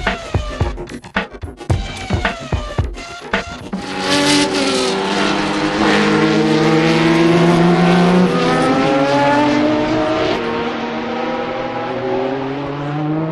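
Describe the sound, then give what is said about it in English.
A Veyron supercar's loud, sustained engine roar with strong layered tones that waver slightly. Before it come a few seconds of sharp, irregular clicks and pops. “Ladies and gentlemen, full respect to the Veyron incoming.”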